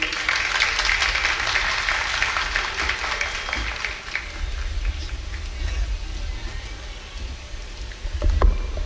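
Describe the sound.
Audience applause welcomes a speaker to the podium at an official opening ceremony, a dense steady patter of clapping that runs throughout, with a dull thump near the end.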